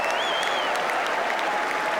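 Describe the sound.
A tennis crowd applauds a stunning winner, with steady, dense clapping that holds at an even level from start to finish.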